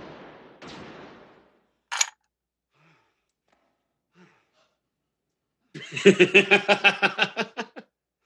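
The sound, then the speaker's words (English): Gunfire in a video game: one sharp shot, then after a quiet pause a loud, rapid burst of many shots in a steady rattling rhythm. No voices are heard. “He shot the corpse.”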